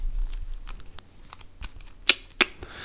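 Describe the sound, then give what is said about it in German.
Playing cards being drawn during a card game, with a run of soft papery flicks and rustles followed by two sharper snaps near the end. “Soll ich einfach so Karten ziehen?”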